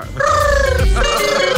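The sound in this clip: A dolphin call: a sustained, slightly wavering harmonic whistle with a squeaky, bird-like quality, briefly broken near the middle before it carries on.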